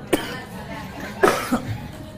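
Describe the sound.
Coughing from a preacher addressing a women's religious gathering: a few short, harsh coughs spaced over two seconds, the first sharp and the later ones quicker and closer together.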